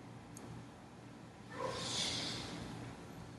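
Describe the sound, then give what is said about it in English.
A slow exhale through the nose during a yoga warm-up: a faint, soft breathy hiss swells up midway, lingers, then eases off. “Inhale deeply, come to center. And through the nose, exhale.”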